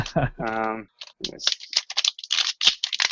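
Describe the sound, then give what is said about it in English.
Plastic packaging crinkles and rustles as a boxed fiber write-back server controller card with 512 MB of RAM, made for a Gen 8 microserver, is unwrapped. A short stretch of speech comes first, then a series of quick, irregular crackles. “So you look at something like this guy, which I'll just unwrap. Unboxing right here.”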